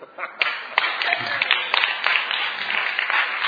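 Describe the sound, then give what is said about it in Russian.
Sparse audience applause at a religious gathering, a thin scattering of claps with a voice speaking over them. “Я понимаю, мало аплодисментов, режим.”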